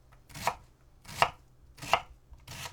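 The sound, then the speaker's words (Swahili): Four crisp knife chops as food is diced into 5 mm cubes. The strokes are sharp and evenly spaced at a slow, steady rhythm, with no voices. “Kigeuze ili kikuangalie kiupande na uanze pembeni kukikatakata huku kikiachana kwa nafasi ya milimita 5 ili kutengeneza vipande vya mchi mraba ulio na milimita 5.”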